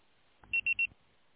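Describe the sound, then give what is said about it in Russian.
Voicemail signal after a call to a busy line is forwarded to a mailbox: three short, high-pitched electronic beeps in quick even succession, faint, preceded by a soft low thump. “Аппарат вызываемого абонента занят. Ваш звонок был переадресован на голосовой почтовый ящик. Можете оставить сообщение после сигнала.”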